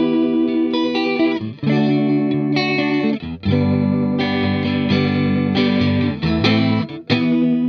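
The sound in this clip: Electric guitar played through a Fender chorus effect pedal, giving loud, shimmering, glassy chords with a doubled, sparkly quality. Sustained strums are broken by a few brief gaps.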